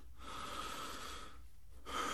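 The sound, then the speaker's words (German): A person breathes in and out inside a stuffy cupboard, faint and airy: one long breath, a brief silent pause, then another breath beginning, with no voices. “Ich hörte ihn ein- und ausatmen und dann hörte ich lange nichts mehr. Es wurde immer stickiger in dem Schrank.”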